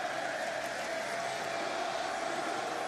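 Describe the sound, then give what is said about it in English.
A wrestling arena crowd booing at the Royal Rumble 2023 event: a thick, steady roar of many voices that holds at a constant level throughout. “The crowd boos.”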